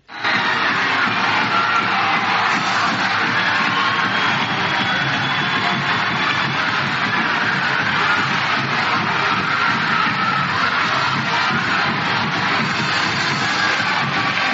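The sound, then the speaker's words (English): Crowd noise as a bunch of kids rush the floor after an upset win, a loud, unbroken roar of shouting, cheering and shuffling feet that holds steady for the whole stretch. “If you're not aware of what that is, that's a bunch of kids rushing the floor, breaking my heart, really is what it is.”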